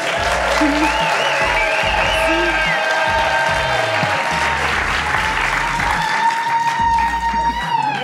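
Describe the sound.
Audience applause and cheering in an art-house cinema in Marseille, a dense, steady wash of clapping that fills the whole stretch, with whoops and raised voices riding over it.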